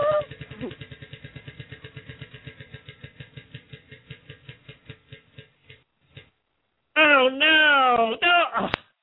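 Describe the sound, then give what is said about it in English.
A prize wheel spins on a game segment. A quick run of clicking ticks slows steadily over about six seconds and then stops. A voice is briefly heard at the start, and people talk once the wheel has stopped. “All right, let's spin the wheel here and see what you won.”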